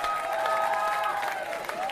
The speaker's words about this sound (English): give them a huge cheer.